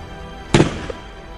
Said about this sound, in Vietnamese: Một tiếng súng thánh thót vang lên, bắn thẳng vào đầu tên lính vừa đi từ trong rừng ra.